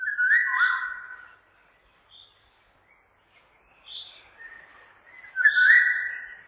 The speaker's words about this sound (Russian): По утверждению самого композитора, здесь есть и песня Иволги. Но ее настоящее звучание не в силах передать ни один инструмент. Вот оно.